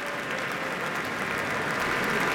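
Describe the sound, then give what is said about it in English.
Sustained, dense applause as the Boston Symphony Orchestra stands with its conductor and soprano soloist for a standing ovation, many hands clapping steadily and evenly throughout, with no lulls. “All the musicians of the Boston Symphony now standing as Andres Nelsons and Erin Morley are holding hands, bowing to the audience. They themselves are also on their feet for a standing ovation.”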